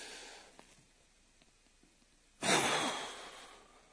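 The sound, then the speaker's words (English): A voice imitates a dying person's last breath: after near-silence, one long, breathy exhale bursts out loudly and slowly fades away. “You're going to breathe your last breath. That means this.”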